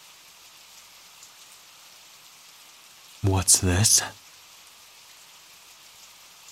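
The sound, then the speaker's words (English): Heavy rain pours outside as a steady, soft hiss of dense drops throughout, broken briefly midway by a voice asking a short question. “You know it's pouring, right? Shouldn't you be inside?”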